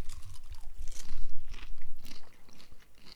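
Salted caramel popcorn being crunched and chewed: many dry, crackling bites and grinding chews in quick, irregular succession, loud and close, with no talking.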